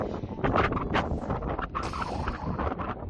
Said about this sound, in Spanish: Lo que estás escuchando es el viento que sopla en la zona, es, ya sabes, uno de los principales elementos que ayuda a propagar ese fuego.